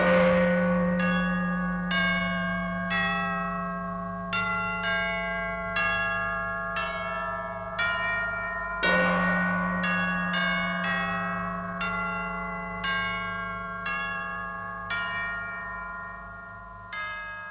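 Bell chimes form the signature tune of a radio chart show: many clanging strikes ring out in a steady run, each ringing down before the next, over a low, sustained hum.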